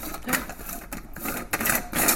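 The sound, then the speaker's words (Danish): The bottom of a thermos flask is screwed back on after its gasket is fitted, making a few bursts of rasping, ratcheting scrapes that come in short, uneven runs. “Så sætter man pakningen på. Ja. Pakken er her, så sætter man som en der bagved. Ja. Og så skruer man bunden på igen.”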